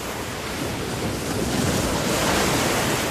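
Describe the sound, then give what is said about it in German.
Incoming tide with surging sea waves: a continuous, loud rushing roar of surf that swells slightly, mixed with wind noise, and no voices. “Die Flut!”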